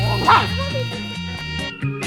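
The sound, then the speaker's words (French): A nine-month-old dog barks, with two sharp yelps standing out above a steady low background and faint whimpering tones between them. “Et en fait, c'est le fils de ma chienne.”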